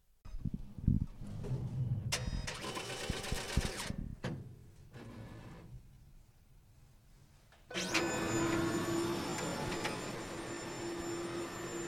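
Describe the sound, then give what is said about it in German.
A printer running a test print to check that all colors print evenly before printing T-shirts. Mechanical clicks and whirring bursts give way to a quieter stretch, then a loud, steady motor whir with a humming tone to the end. “machen wir erst auch nochmal einen Probedruck. Die Farben sollen ja auch alle wunderbar gleichmäßig drucken.”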